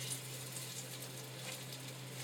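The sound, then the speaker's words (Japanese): A cod fillet fries skin-side down in a heated, lightly oiled pan, giving a soft, steady sizzle with a faint low hum underneath. “お魚ちょっと焼いていきますねフライパン熱していただいて若干、えー、油を引いてもらいますねで皮目から焼いてください”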